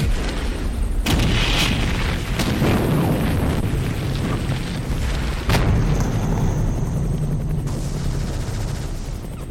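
Loud bombing explosions as napalm strikes a tree line: a continuous heavy roar and rumble, broken by a few sharp blasts, with no talk.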